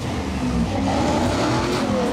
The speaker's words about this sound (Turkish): Lastikleri yakıyor ama.